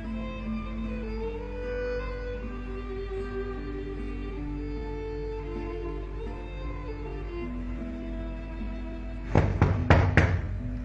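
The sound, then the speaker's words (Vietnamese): A few light knocks on an office door come near the end, quick sharp taps over a steady, tonal background that runs through the whole clip. “Hồng Ân gõ nhẹ cửa văn phòng của Đình Tuấn”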